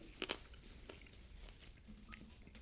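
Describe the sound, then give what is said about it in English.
Sharp crunches of teeth biting into chicken wing cartilage during a hot wing eating challenge: a couple of quick crisp cracks near the start, followed by faint, soft chewing. “Chicken wings are not supposed to crunch like that. That was bone. It's cartilage.”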